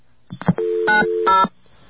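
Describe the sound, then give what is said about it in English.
Telephone dialing tones for a 0+ call: a few soft clicks, then steady, loud dual-tone beeps that change pitch as digits are keyed, ending abruptly with no voices. “It does not work in information. Let's try 0+ calls and see if that's any better.”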